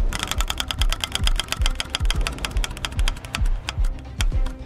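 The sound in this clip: A spinning wheel in a word-guessing game gives off a long run of rapid, sharp ratcheting clicks that gradually slow toward the end. No one speaks during the spin.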